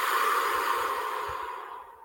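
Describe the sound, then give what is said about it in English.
A long breath released out through the mouth, a steady airy hiss that slowly fades toward the end, alone with no talking. “And I want you to release that breath from the mouth, in through the nose and out from the mouth.”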